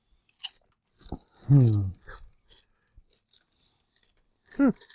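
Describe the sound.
Crunchy chewing during a taste test of bagel-flavored snacks, sporadic crisp bites and crunches separated by quiet gaps, with short murmured vocal sounds in between.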